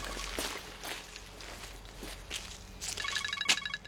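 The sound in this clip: Footsteps walking at a steady, even pace, with several distinct treads over a low background hum and a brief electronic beeping tone near the end.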